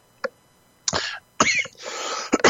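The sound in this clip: Coughing and throat clearing from a dry throat: a short faint cough, then several harsh, rasping bursts, with one longer scraping stretch near the end. No talk over it.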